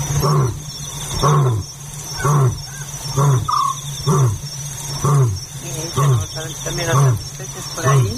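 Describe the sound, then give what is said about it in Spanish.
An African scops owl calls at night, giving a regular series of short, low, purring trilled notes about once per second over a constant high insect chorus. “Ese tru es el autillo africano”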